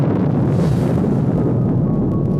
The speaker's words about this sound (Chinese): 这是中国第一颗原子弹爆炸试验现场主控站里发生的一幕。就在原子弹爆炸的一声巨响之后，